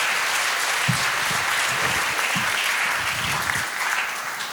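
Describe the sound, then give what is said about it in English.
A crowd claps to welcome a guest speaker at a morning gathering, producing a full, steady burst of applause with scattered low thuds that tapers a little toward the close. “So let's put our hands together and just welcome Jürgen as he comes and shares this morning.”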